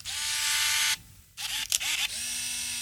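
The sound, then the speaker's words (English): Konica Big Mini BM201 compact film camera shutter, nearly 30 years old, clicking and motor-whirring: a loud high whir stops abruptly, then a few quick clicks and short mechanical buzzes follow before the steady whir resumes. “I hope they get many, many rolls out of the Big Mini BM201. Oh, and here is the noise of the shutter.”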